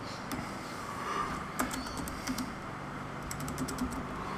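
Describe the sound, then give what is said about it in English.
Typing on a computer keyboard: quiet, scattered keystrokes throughout, with a quick cluster of taps near the end. “Type that in. Oh, there you go.”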